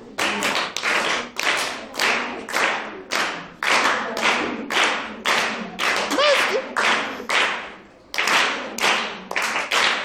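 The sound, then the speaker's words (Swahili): Many sharp hand claps from a group of children, struck in a counted rhythm pattern of clap groups separated by brief pauses, loud and crisp with no voices over them. “Hautubadilishe mfumo wa kupiga makofi? Ndio. Tuanze matano, tunakuja manne, tunakuja matatu, mawili, tunamalizia na moja.”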